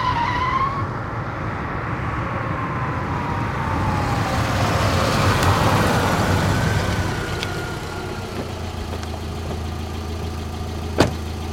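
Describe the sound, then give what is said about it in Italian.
A car brakes hard from about 90 km/h: tires skid with a sustained rough hiss while the engine note slides steadily lower, ending with the motor running on and a single sharp click. “Ma sì, ma frena, stai a 90 all'ora, sai. Ho frenato.”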